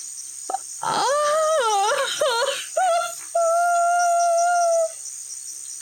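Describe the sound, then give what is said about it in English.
A long, loud wail rises out near a pond at night. Its pitch bends up and down through several wavering swoops, then settles into a steady held tone over a faint constant high whine. “And as you prepare for sleep, you hear a long wail.”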